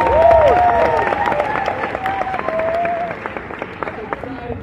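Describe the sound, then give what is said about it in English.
Audience applause at an event in Uganda greets a man introduced on stage. High whoops and cheering voices ride over the clapping at first, and the clapping then thins out and tapers off. “Give it up for my brother. A round of applause for Martin.”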